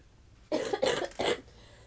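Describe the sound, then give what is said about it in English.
Three hoarse coughs in quick succession from a sick person, fairly loud and harsh against an otherwise quiet background. “Sorry about the cough.”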